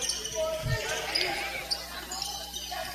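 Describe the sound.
A basketball is dribbled on a court during a game against a 2-3 zone defense. One low, solid bounce lands near the start, under continuous play-by-play talk.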